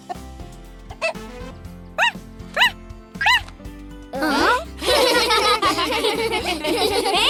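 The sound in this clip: A cartoon baby parrot imitates a dog's bark: a voice makes a few high, squeaky rising-and-falling yips separated by short pauses, then a denser, louder stretch of voices and music takes over.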